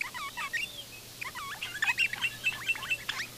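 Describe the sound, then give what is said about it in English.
High whistling calls of an eastern rosella, a small parrot: many short, clear notes in quick bursts, alone over a faint low steady hum. “That's the call of an eastern rosella, a small, beautifully coloured bird.”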